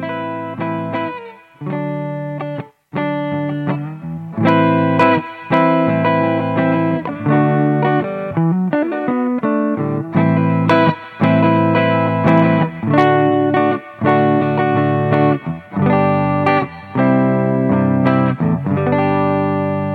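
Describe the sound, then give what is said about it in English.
Clean electric guitar tone captured with an SM57 microphone: chords and single notes ring out in a steady, continuous stream, loud and alone with no voices. “So I'll start with the 57, which everybody pretty much knows. This is the clean sound.”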